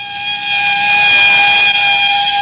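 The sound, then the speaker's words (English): A police ambulance siren sounds as the vehicle speeds past on a park drive: a loud, shrill, steady tone held at a constant pitch, with no talk. “the hulking shape of a police ambulance whipped through the drive and sped past us”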